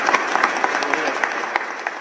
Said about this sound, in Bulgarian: Така че, аплодисменти за тях тримата, за кметана и за кмета на общината.